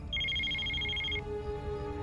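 A telephone ringing with one bright, electronic, trilling ring burst that lasts about a second, then stops, leaving only a low, steady background hum.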